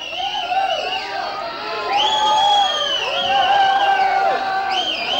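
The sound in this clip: A concert crowd yells and cheers at a rock show in Unterföhring, Germany. Many voices shout and whoop in wavering tones, growing louder partway through and holding steady to the end.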